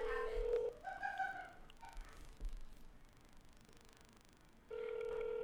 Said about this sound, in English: Picking up the phone dial. Love it. Classic. So great. Yes. So go ahead and put it on speaker there. Yep, put it on speaker.